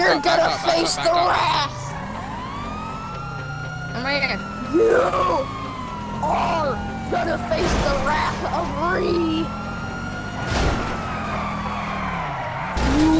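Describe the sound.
Wailing police siren chasing the player in the video game GTA V, with skidding tyres and car noise, the siren's pitch sweeping up and down throughout while voices talk over it.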